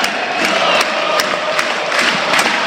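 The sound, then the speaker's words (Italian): Home crowd of yellow-and-blue Parma supporters cheering at the Tardini stadium during a football match, a steady, loud roar of massed voices with occasional sharp accents. “Questo è l'effetto dello stadio di casa, del pubblico giallo-blu.”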